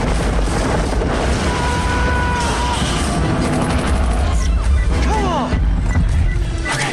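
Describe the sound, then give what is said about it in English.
A missile explodes and destroys a tank during a firefight with Serb forces: dense, loud rumbling blasts and roaring noise that carry on throughout. “A missile blows up one of the tanks.”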